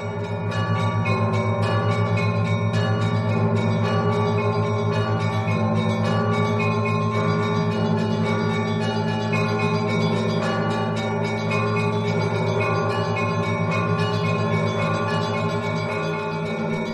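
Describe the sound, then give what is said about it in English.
Church bells of many Orthodox churches peal together in a Christmas chorus, a dense, continuous wash of ringing tones that stays loud and steady throughout without pause. “Thousands of churches peal out in a chorus of bells.”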